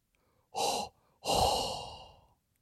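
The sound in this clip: Hot, heavy breathing right into a microphone: two breaths, a short one followed by a longer, drawn-out exhale that fades slowly, with nothing else heard.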